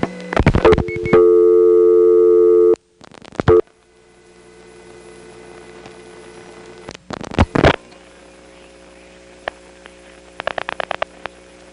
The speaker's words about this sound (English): Next, dialing 438.